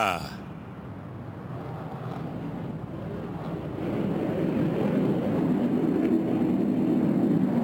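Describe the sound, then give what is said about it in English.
Thunderbirds jets fly over the Indianapolis Motor Speedway before a race, making a broad, rushing roar that swells louder through the second half while a voice talks over it. “and a second equally impressive flyover by the Thunderbirds”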